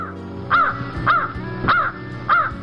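A crow caws four times at an even, unhurried pace. Each call is a harsh, rasping note over a low, steady background.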